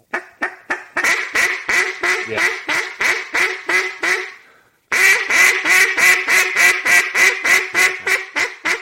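A hand-blown duck call quacking in two long runs of rapid, evenly spaced, loud nasal quacks under steady breath pressure, split by a short pause.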